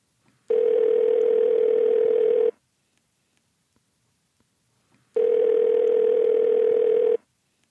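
A telephone tone sounds while a call is being placed: two long, steady, buzzing tones of about two seconds each, separated by a stretch of silence, with nothing else heard.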